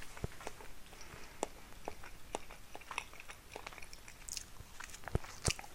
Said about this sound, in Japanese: 今このねレーズンバターロールを食べながらガーリックトーストが焼けるのを待ってる